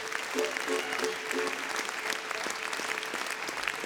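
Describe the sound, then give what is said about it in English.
An audience applauds a mandolin player at a live show, with dense, steady clapping throughout and a voice briefly audible near the start. “Don't give him too big a hand, he'll want more money.”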